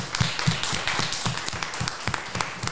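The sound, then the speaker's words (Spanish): People at a seniors' centre applaud in a steady stream of many quick claps, with occasional louder hand strikes. The applause stays moderately faint throughout and no one talks. “Os voy a dar un aplauso. Vamos a dar un aplauso por este momento radiofónico.”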